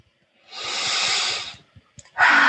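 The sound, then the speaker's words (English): A big deep breath taken during a wrist-tapping relaxation exercise: one long, loud, airy breath lasting about a second, then quiet, then another breath starting at the end, with no talking. “Big deep breath.”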